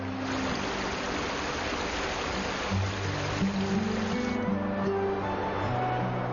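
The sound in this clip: Continuous rushing of a meltwater stream swollen by thawing snow under strong sun in a valley, a dense, even wash of flowing water with no clear breaks.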